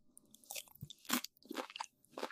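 Close, quiet chewing of something cold: a few crisp crunches and bites in an irregular rhythm, each a short crackly burst with soft pauses between.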